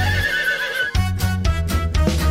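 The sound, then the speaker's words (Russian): A horse whinnies loudly, with a high, wavering neigh followed by harsher, pulsing calls that carry on to the end. “Отгадай скорей загадку, кто же там стоит? Лошадка!”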